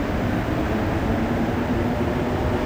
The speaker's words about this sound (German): Dass die Metro in Montreal so leise dahingleitet, hat mit ihren Reifen zu tun. Keine Stahlräder, sondern Gummireifen.